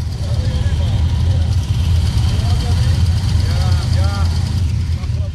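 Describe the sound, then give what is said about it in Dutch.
Deep, steady engine rumble of a Harley-Davidson motorcycle rolling in at a group ride gathering, a low continuous drone with voices heard faintly alongside. “komt hier een fantastische Harley net binnenrijden.”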